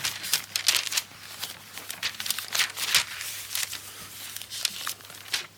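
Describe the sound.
Pages of a Bible being handled and leafed through, with many crisp papery crinkles and rustles arriving in irregular bursts. No one speaks.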